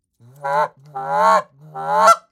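A goose gives three deep, growling honk calls in quick succession, each a rough, low, harmonic-rich call lasting about half a second, loud and alone.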